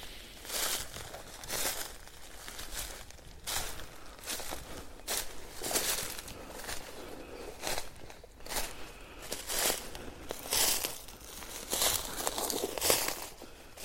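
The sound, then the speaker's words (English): Footsteps walking through open beech woodland near badger setts and mounds from upturned trees, with crinkly, crunching steps that fall in a steady, unhurried rhythm. The footfalls are fairly faint and heard alone. “There are a few mounds from the upturned trees, and as you can hear, I'm walking in the more open beech side of this divide.”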